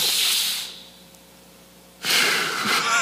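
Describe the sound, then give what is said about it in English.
A deep breath during a church sermon: a loud, breathy rush that fades, then a short quiet pause, then another strong, airy rush of breath. No words are spoken. “Let's take a deep breath.”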